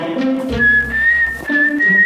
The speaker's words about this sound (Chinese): 因为那时候我吹口哨吹得特别好。 对， 来一个，